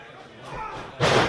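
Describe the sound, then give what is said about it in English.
A 400-pound wrestler hits a wooden ring mat with one heavy, booming slam near the end, and voices talk over the lead-up. “That is the sound of a 400-pound man hitting a wooden mat. Sounds like they put this ring together very well.”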